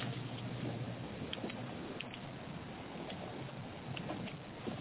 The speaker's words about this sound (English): I just want to know, is the background noise from my driving too loud, or?